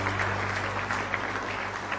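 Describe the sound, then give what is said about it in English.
A church audience claps their hands in praise during a worship service, a brief, dense and steady burst of many hands clapping at once, with no voices standing out. “Give the Lord a hand clap of praise tonight.”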